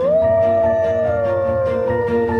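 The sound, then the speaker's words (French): Wolves howl in the Berry region of France: a long, loud, sustained howl that holds its pitch and then slowly sinks, with several other steady tones layered beneath it for the whole stretch. “Oh, des loups. Jésus-Marie-Joseph, des loups.”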